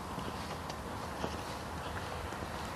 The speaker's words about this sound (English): Walking 2 miles does not constitute sitting quietly, but something I've got to do.